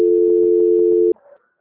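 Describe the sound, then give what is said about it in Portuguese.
A steady, mid-pitched telephone tone sounds during a call transfer, holding for about a second before cutting off abruptly, then a short, faint flutter of noise follows. “Peço agora um momento em que eu vou transferir a sua ligação novamente, tá bom? Tá bom. Transferência.”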